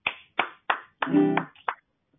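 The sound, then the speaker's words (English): A few sharp hand claps of applause, loud and spaced unevenly, with no talk over them. “Applaud me, please.”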